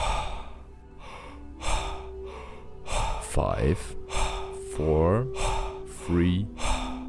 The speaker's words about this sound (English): Power breathing. Double speed.